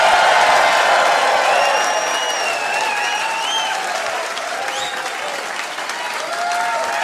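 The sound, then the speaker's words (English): Loud, sustained applause rises from a comedy audience as a stand-up comedian is welcomed to the stage. Dense clapping fills the whole stretch with a few whistles on top and eases slightly toward the middle. “Ladies and gentlemen, would you please put your hands together and welcome to the stage, Luke Hegging!”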